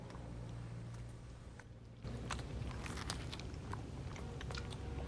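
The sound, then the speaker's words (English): Three men steadily chomping and chewing, with many small, crisp bites and crunches that grow busier after the first couple of seconds over a low, constant background hum. “The only sound in the room is the steady chomping of the three men.”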